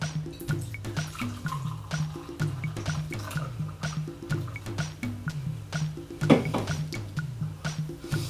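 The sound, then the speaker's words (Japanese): Liquid pours steadily into a cup as a lemon drink is served, a continuous soft splashing trickle over a repeating low melodic background, with a slightly louder burst near the end. “コップに注いで”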